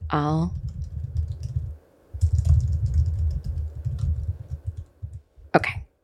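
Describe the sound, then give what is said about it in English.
Someone types a reply on a keyboard, with two long runs of soft, steady keystrokes separated by a short pause, a brief vocal sound at the start and a cough-like sound near the end. “Hang on, let me write back that I would like this one.”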